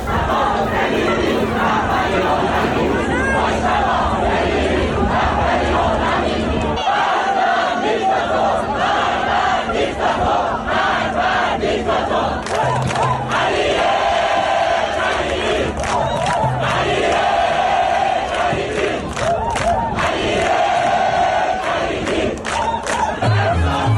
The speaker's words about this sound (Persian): تماشاگران هم بعد از مسابقه به جای شعارهای ورزشی در دبی اینجوری شعار دادن.